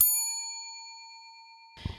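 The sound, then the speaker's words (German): A single bright electronic chime from a library security gate detecting an item that was not deactivated, one ringing tone fading slowly over nearly two seconds, followed by a short rustling noise at the end. “Erkennt es ein nicht entschärftes Medium, leuchtet es rot auf und piept.”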